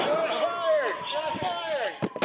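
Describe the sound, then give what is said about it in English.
Gunfire during a police shootout with an intruder in a hotel lobby, captured on a body camera while fire alarms blare. A few sharp bangs cut through near the end over a steady, high tonal alarm. “A firefight captured on police body cam. Fire alarms blaring as bullets fly, round after round.”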